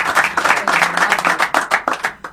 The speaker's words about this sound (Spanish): A ver, aplauso para Rocky.